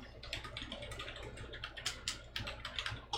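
Typing on a computer keyboard: a quiet, rapid, uneven run of many small key clicks that continues steadily with no one speaking.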